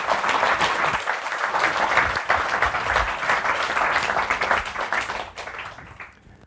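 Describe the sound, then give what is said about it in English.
Audience applause welcoming novelist Edna O'Brien on stage at a London Review of Books event, thick continuous clapping that tapers in the last seconds and fades out at the end. “So with that in mind, please, could I ask you again, put your hands together to welcome to the LRB, Edna O'Brien.”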